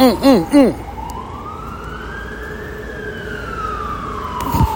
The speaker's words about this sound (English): as you can hear the ambulance in the background